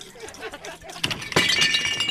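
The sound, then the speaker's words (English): A person falls off a stool with a sudden crash: a sharp thump, then a louder, glassy, clattering burst that rings on as a bright jangle to the end. “Oh, sorry about that. Fell off my stool.”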